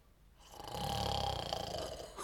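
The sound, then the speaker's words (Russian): A person snoring in bed, one long, rasping, drawn-out snore that swells early and holds steady at moderate loudness before tailing off. “Где это так храпят? У меня в постели?”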